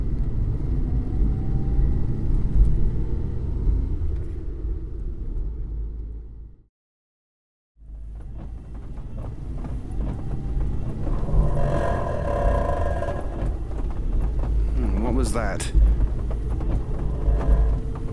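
Car engine struggling as if about to break down: a heavy, rough rumble cuts out briefly midway, then returns with uneven sputtering and whirring.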